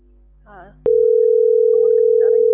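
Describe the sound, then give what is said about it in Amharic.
A telephone tone sounds while someone calls home. A voice speaks briefly, then a loud, steady single-pitched tone starts abruptly and holds to the end, with the voice continuing faintly over it. “እየጠራ ነው።”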